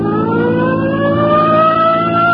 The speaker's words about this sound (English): Come on, hit your siren.